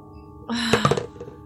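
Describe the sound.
Dice are rolled for initiative in a tabletop game, making a short rattle with a few quick clicking knocks before it goes still.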